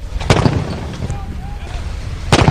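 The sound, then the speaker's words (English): Guns firing in salute for a papal arrival in Germany: two loud, booming blasts, one near the start and one near the end, with a low rumble continuing between them. “Guns firing in salute as Pope Benedict arrived in Germany to start a 4-day visit to his homeland.”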